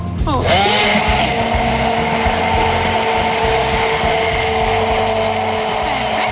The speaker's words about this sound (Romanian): Uite, te las pe tine să blendezi.